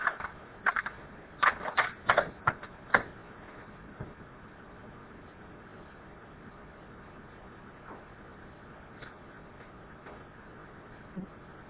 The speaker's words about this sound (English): Oh, I better have to stop the tape and turn it over. Just a second.